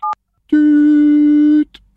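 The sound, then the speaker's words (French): A single short keypad tone as a telephone number is dialed to call the town hall, then a long, steady, buzzy electronic tone with a faint click at the end. “elle a redécroché trop vite, donc je pense qu'elle essaye d'appeler la mairie”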